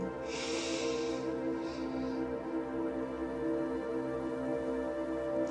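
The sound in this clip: A person inhaling deeply during a guided breathing exercise: a soft, airy rush of breath followed by a shorter second breath, over a steady tonal background hum.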